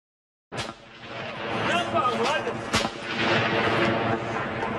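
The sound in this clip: Mortar bombs exploding in Sarajevo: a sharp blast breaks the silence, and a second sharp crack follows midway. A dense, rumbling wash of noise continues throughout, with faint indistinct voices beneath it.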